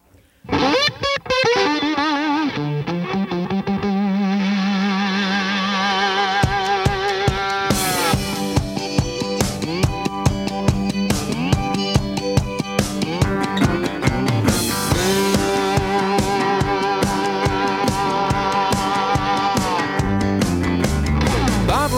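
Electric slide guitar with a razor-sharp, buzzsaw-like distorted tone swoops and hovers over a melody, gliding between pitches above a steady, driving band backing.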